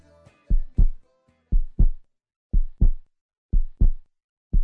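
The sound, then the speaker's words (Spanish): A heartbeat thumps in steady, low double beats, four clear lub-dub pairs evenly spaced with a fifth beginning at the end, each pair a quick pair of soft, deep thuds, heard alone. “escuchando los latidos de mi corazón”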